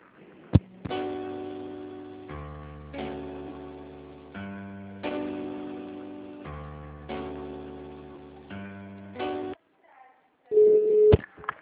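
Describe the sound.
Telephone tones play while a call is transferred: repeating synthetic tone phrases of a couple of seconds each, steady and moderately loud, then a brief gap and a short steady tone near the end.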